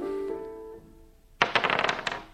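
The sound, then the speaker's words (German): Dice rattle and clatter in a game, a quick run of sharp, bright clicks and knocks that bursts in suddenly and tumbles on for about a second. “Nun gut. Spielen wir. Sie würfeln.”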